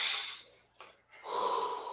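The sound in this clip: A person breathes in and out deeply in two long, airy breaths separated by a short pause. The breaths are fairly soft, with no talk.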